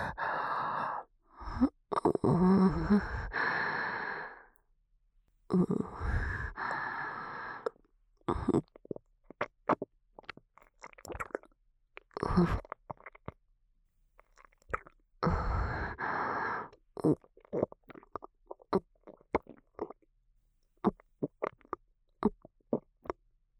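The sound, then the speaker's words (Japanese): Gulping and swallowing of a drink in several separate wet bursts, with breathy exhales and pauses of near silence between them. “これ飲むよ。全部飲むから。ごっくんする音、よく聞いてね。”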